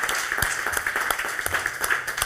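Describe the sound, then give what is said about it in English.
Audience applause at a live event, a dense and fairly loud run of many overlapping claps that holds steady for the whole clip. “So we can give the listeners a round of applause.”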